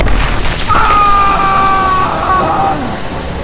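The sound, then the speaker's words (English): An explosion aboard a starship during a space battle: a loud, sustained roaring blast with thin whistling tones sliding through it, the noise holding steady before easing slightly. “Why did Battelle's castle explode when there's no hull breach on the bridge?”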